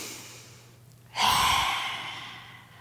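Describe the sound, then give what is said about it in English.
A forceful yoga lion's breath exhale, done with the tongue out to release the jaw: after near silence, one long breathy rush of air starts abruptly and slowly fades. “lion's breath, where you just inhale. And you exhale, you stick your tongue out like that. So inhale.”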